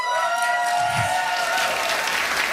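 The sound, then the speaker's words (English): A live studio audience applauds and cheers after former guests of a long-running show are asked to make some noise. The clapping is brief and steady, with a faint sustained tonal layer beneath it. “If you have ever been on Now or Never, make some noise.”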